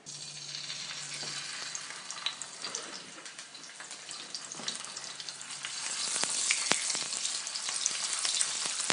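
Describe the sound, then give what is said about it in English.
Octopus or squid sears in a smoking-hot pan with rice bran oil, giving a steady hissing sizzle with crackling pops that grows louder in the second half. “some rice bran oil, which has a high smoke point, so we can get the pan smoking hot here. All right. Get a little color.”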